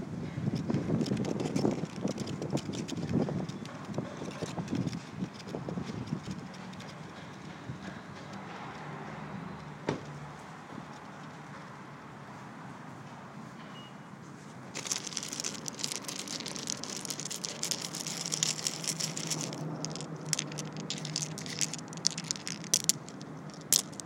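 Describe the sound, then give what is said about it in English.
Leaves rustle in the wind with a continuous crackly patter and gusty wind noise, growing busier and brighter in the later part. “Those are the sounds of leaves in the wind.”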